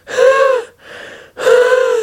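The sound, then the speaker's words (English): A voice imitates someone breathing heavily onto a library card: two loud, voiced, wheezy exhalations with a quieter breath between them. “He snatched it back and breathed on it heavily”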